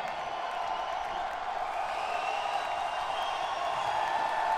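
Audience cheering and applauding at the end of a band's concert forms a steady, unbroken roar of crowd noise that holds an even loudness throughout.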